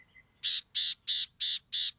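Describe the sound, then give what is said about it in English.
Calls of a California gnatcatcher, a rare bird of coastal scrubland in Baja California: five short, harsh, buzzy notes, evenly spaced and high-pitched, each matching the last, heard alone. “California gnatcatchers look and sound much the same. But these rare birds prefer the coastal scrublands of Baja California.”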